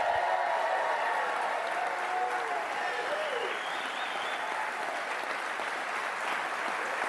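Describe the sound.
A live studio audience applauds at an evening panel event. Many hands clap in a steady, sustained stream that keeps an even level from start to finish.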